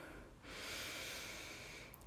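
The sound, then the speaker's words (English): One deep breath in, a single airy rushing inhale that starts after a short quiet pause and holds steady for over a second before stopping abruptly, heard alone with no talk. “I want you to take a deep breath, like really take a deep breath right now.”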